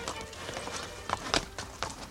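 Hooves of two horses clip-clop quietly in a few soft, uneven knocks, with a slightly louder cluster partway through over a faint background.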